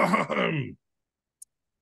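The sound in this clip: A deep breath let out as a voiced, sighing exhale lasting under a second, followed by silence broken only by one tiny click.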